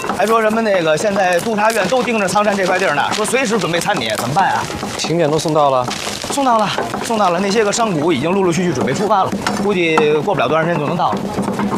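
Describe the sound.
A knife chops food finely, with rapid, steady cuts while a meal is prepared for many guests. People talk continuously over the chopping.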